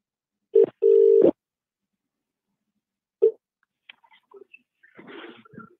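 Telephone tones as a number is dialed for a football fans' phone-in call: a short beep, a longer steady tone, then another short beep a couple of seconds later, followed by faint clicks and rustling.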